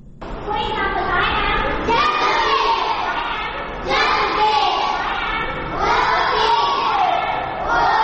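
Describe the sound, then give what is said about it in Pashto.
Voices of working children at a school run by the Rana Child Welfare Foundation in Peshawar, a loud, dense mass of chatter and shouts that continues without a break. “دا اوازونه د خواري مزدوري کوونکو ماشومان لپاره په پیښور کې د رڼا چایلډ ویلفیر فاونډیشن په نامه ښوونځي دي”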